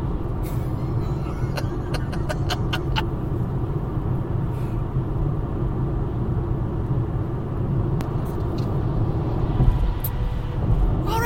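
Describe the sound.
A car is driving on a long road trip. Engine and road noise make a constant low rumble that stays at one level throughout.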